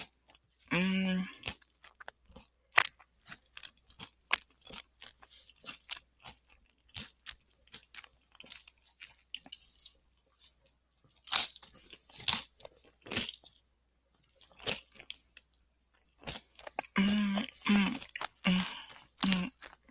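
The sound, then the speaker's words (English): Crunchy chewing of lettuce in a mouthful with cream, corn, veggie meat and beans: many wet crisp bites and crunches in irregular bursts. Brief voiced sounds appear near the start and end. “I don't know if you can hear the lettuce.”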